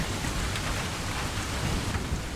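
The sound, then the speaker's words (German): Steady rain outside on a cold day: a dense, even hiss of falling drops, continuous and unbroken throughout. “hier draußen ist es ein scheiß Kalt und so. Ja. Regen.”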